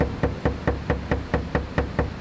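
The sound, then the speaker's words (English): Knocking on an apartment door, a rapid, evenly spaced run of many sharp raps at a steady rhythm, fairly quiet and with no talk over it. “At this apartment complex, three workers are knocking on every door.”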